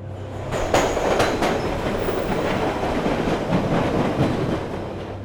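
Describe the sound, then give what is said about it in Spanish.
A metro train speeds through subway tunnels of Stockholm's network, giving a loud, steady rumbling roar with a rhythmic clickety-clack of wheels over rail joints and brief metallic squeals riding on top. “El Silver la flecha plateada, es un tren fantasma que según la leyenda urbana de Estocolmo, en Suecia, ha sido visto circulando a toda velocidad por la red del metro de la ciudad.”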